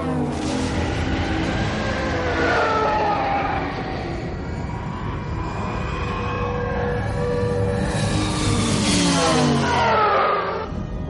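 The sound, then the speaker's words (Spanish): Loud engine roar of a shuttle and two fighter spacecraft leaving a cruiser and flying toward a nearly finished spherical space station in a 1983 science-fiction film. A continuous rumbling drone swells into a sweeping whoosh near the end. “Una lanzadera y dos cazas abandonan el crucero y vuelan hacia la estación.”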